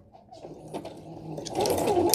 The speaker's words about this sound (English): I think I'm going to do a zigzag stitch this time, which is number 4 on the machine.